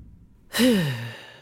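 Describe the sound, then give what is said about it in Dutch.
A long voiced sigh imitates a dying medieval king exhaling his last breath in a castle in Rouen, France, in 1087. It is a single breathy exhale that starts loud and sinks steadily lower in pitch as it fades, with no other sounds. “We zijn net op tijd om koning Willem zijn laatste adem te horen uitblazen.”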